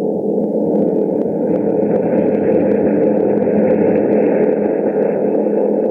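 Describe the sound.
Engine drone of a bomber aircraft in flight: a loud, unbroken, low rumbling hum that holds steady from start to finish, with no other sounds standing out.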